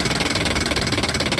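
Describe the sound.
A game-show prize wheel sound effect spins with a fast, even stream of ticks, loud and steady throughout with no slowing.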